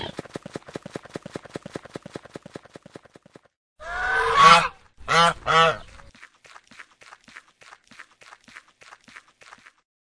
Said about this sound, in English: Goose.